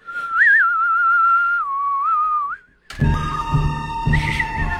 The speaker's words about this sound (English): You guys are awful, awful, awful whistlers.